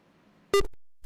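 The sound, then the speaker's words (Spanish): A single short, faint electronic beep sounds as a caller's phone line drops, following quiet line hiss. “Bueno, se cayó la llamada.”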